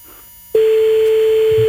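A telephone line tone for an unanswered call: after a brief quiet stretch, one steady mid-pitched tone starts abruptly and holds unbroken at an even level to the end, over faint line hiss.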